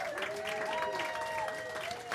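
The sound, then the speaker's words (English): Polite applause from a talk show studio audience, a soft, steady patter of clapping with sustained musical tones running beneath it. “We hear polite applause from the studio audience.”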